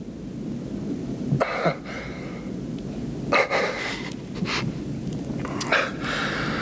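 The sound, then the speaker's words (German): A dog barking as it comes out of a shop doorway: a few short, sharp barks spaced apart, fairly faint, over a low wind rumble. “Es war nur ein Hund. Er kam aus der Ladentür.”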